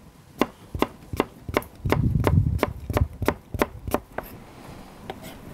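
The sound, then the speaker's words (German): A knife chops an apple into cubes after the core is removed, giving many sharp, evenly spaced cuts against a board in a steady rhythm, with a brief denser patch of cutting midway. “Dann als nächstes schneiden wir Apfelwürfel. Den Strunk raus.”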